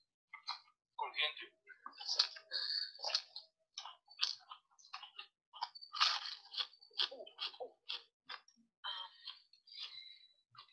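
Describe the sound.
Crunchy toasted bread being bitten and chewed in a film scene, with many sharp, dry crunches in an irregular, steady rhythm and short gaps between bites.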